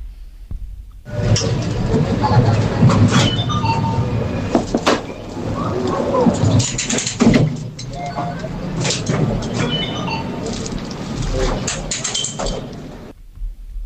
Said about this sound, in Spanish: No, yo creí que era como la entrada de un metro